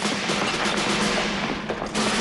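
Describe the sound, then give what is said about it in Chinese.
Gunfire erupts inside a small command post: a dense, continuous clatter of many rapid shots that fills the whole clip without a break. “霎时间，小小的指挥部里枪声大作，战成一团。”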